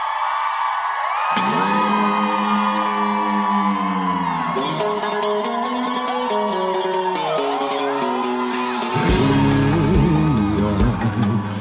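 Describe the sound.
An audience cheering and shouting at a live show, sustained loud whoops and yells that swell even louder near the end.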